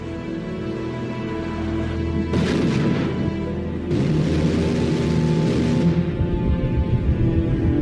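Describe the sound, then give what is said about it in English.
Roaring rush of an unarmed supersonic missile launched from an Oscar-class nuclear submarine during a naval war game: two broad bursts of noise surge over a steady low rumble and sustained tones. “She fires an unarmed missile, a supersonic weapon codenamed Shipwreck.”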